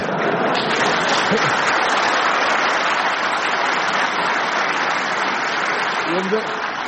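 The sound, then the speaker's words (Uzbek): Applause for Shavkat Mirziyoyev at a statue unveiling: a dense, steady wash of many hands clapping that holds at an even loudness for the whole stretch, with no clear pauses. “Qarsaklarga e'tibor bering. Shavkat Mirziyoyev Ibn Sinoning boshini kesib, Ulug'bekning tanasiga o'rnatib qo'ygani uchun yangrayotgan qarsaklarga e'tibor bering.”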